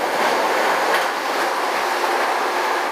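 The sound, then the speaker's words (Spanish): A New York subway train in motion makes a steady, dense roar of wheels and rails that holds at an even loudness throughout, with no voices. “hay un videito donde nos montamos por primera vez con el tren en el tren”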